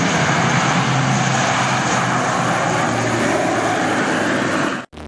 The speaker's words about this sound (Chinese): 随着起飞指令下达，运输机急速升空，飞向任务空域。